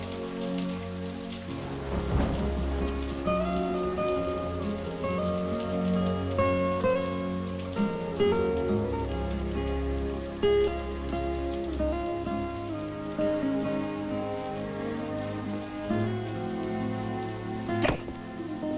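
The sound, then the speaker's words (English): Steady rain falls outside a porch at night, a constant dense hiss that runs through the whole stretch with a few brief, sharper spatters. “Rob looks out from the porch into the rain and darkness.”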